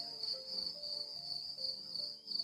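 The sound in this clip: A cricket chirps in a steady, high-pitched trill that pulses rapidly and continuously throughout, faint and alone with no other sounds around it.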